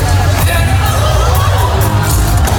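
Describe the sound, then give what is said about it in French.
Booing and whistling from a concert audience at the Olympia, filmed by a spectator: a loud, unbroken crowd roar with yells mixed in that holds steady throughout. “Et on entend des gens qui huent qui dans siffle, le public, ouais. Qui sifflent.”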